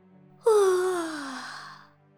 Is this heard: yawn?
yes